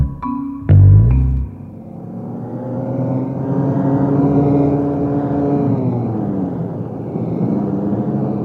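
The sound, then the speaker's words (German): A car speeds along a tree-lined country road at about 70 miles per hour. A heavy thud opens the sequence, then the engine note climbs and settles into a steady, droning hum that carries on alone. “Rasen Sie nicht so, Crocker. Schließlich möchte ich nicht auch noch an einem Chausseebaum landen. 70 Meilen, Chef, das ist doch nicht gerast.”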